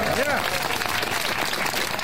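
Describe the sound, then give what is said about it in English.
Audience applause fills the hall during President Biden's State of the Union address, a dense, steady wash of clapping that stays loud throughout, with a voice briefly audible over it. “And when you keep clapping for President Biden's State of the Union address, how about that?”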